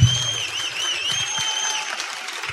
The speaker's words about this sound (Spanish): Un aplauso fuerte.